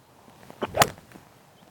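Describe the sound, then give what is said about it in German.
A golf club strikes a ball during a round, giving one sharp, crisp crack that is brief and loud against a quiet background, with a softer short burst just before it. “ein guter Treffer. Von da springt er vielleicht ein bisschen nach links.”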